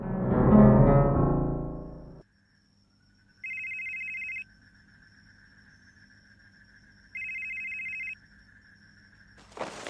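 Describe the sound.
A telephone rings with an incoming call. After a stretch of talk, two identical electronic ring bursts sound, each about a second long, separated by several seconds of near silence.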